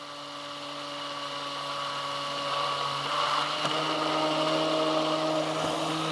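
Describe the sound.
A blender whirs steadily while blending oil into an emulsion to make mayonnaise, a continuous motor buzz that grows slightly louder over several seconds.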